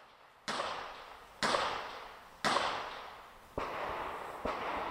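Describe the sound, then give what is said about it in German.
Live gunfire at the shooting sports centre on the Friedberg in Suhl: five sharp, loud shots spaced about a second apart, each one trailing off slowly before the next. “Schon weit entfernt kann man hören, womit man es auf dem Suhler Friedberg zwischen Autobahn und Wäldern zu tun hat. Im Schießsportzentrum wird scharf geschossen, über und unter der Erde.”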